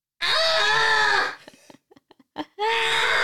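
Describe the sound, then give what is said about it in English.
A person imitates baby lambs bleating at night on a sheep farm: two long, wavering voiced bleats, with a few short soft sounds between them. “the sound that the sheep made. I think it was in Dreammaker. Oh. When we went to Dreammaker. Mm-hmm. And there was a sheep farm. Yeah, there. And the babies were going, at night time, were going like,”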